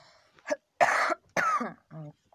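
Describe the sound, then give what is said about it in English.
A few harsh coughs from someone who is sick with a lingering cough, coming in short, raspy bursts and ending in a brief voiced throat sound. “Please excuse me, I'm kind of sick. I have a cough I cannot get rid of.”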